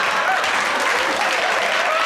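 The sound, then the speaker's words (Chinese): A group clapping hands in time with a clap-along song game. The clapping is dense and steady, with no pause across the whole clip and no speech over it. “如果感到快乐，我们就一起来。如果感到快乐，一起拍拍手。啪啪啪！”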